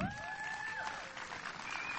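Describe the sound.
An audience applauds to welcome a speaker onto the stage, a steady, faint wash of clapping that runs throughout.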